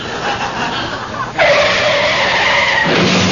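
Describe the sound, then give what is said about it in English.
Tires squeal as Valiant cars skid in a parking lot collision: low rumbling noise gives way to a loud, sustained screech that holds for about a second and a half before cutting off. “Oh, no, a couple of Valiants just collided in the parking lot. Both fenders are badly dented.”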